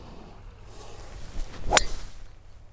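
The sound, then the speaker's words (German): A golf club swung off the tee to drive the ball on a golf course: a rising swish that peaks in one sharp, bright strike of the club on the ball, then fades. “So, aufgeteet ist es, Ball wird angesprochen und los geht's.”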